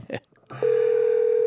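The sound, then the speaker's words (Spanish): A steady, unbroken telephone dial tone sounds while a call is being placed. It starts after a brief stretch of voice and noise at the beginning, then holds at one even pitch and loudness until the end. “Le estamos llamando a Gustavo Reyes.”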